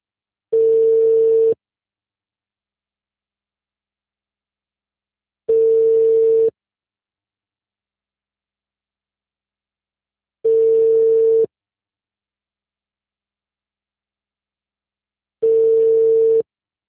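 Ringback tone of an unanswered telephone call: four evenly spaced beeps, each about a second long at a steady mid pitch, separated by long silences.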